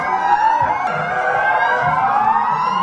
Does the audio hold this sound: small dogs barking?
no